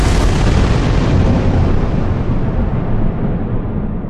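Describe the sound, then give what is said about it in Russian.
Thunder from a lightning strike outside a mansion window, violent enough to shatter upstairs glass, with no rain falling: a loud, dense, rumbling roar that fills about four seconds and eases only slightly toward the end. “Громыхнуло так, что на втором этаже лопнули стекла.”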